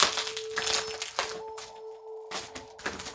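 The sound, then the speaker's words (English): Crinkling and crackling of taped bubble wrap packaging being pulled open, with dense, irregular crisp snaps and rustles running throughout. “It's still taped in and bubble wrapped. Really, really wrapped. Unwrapped.”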